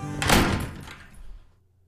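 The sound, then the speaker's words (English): A door closing as someone walks out lands as a single heavy thunk with a sharp attack, then rumbles and fades away over about a second. “I'm outta here. And the young Alabaster walked out the door.”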